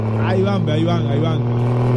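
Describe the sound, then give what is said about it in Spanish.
A turbocharged car engine, pushed hard by street racers, drones with a steady low hum throughout while a voice talks excitedly over it. “Ahí van. Eso, que se sienta el turbo ahí. Eso, písale la chancleta.”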